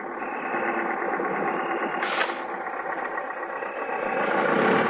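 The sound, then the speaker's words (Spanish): The engine of a Valero company truck arriving drones with a steady, rhythmic chug, holding an even level before swelling louder toward the end. “Llega un camión de la compañía Valero y Teresa al verlo se mete en la vivienda.”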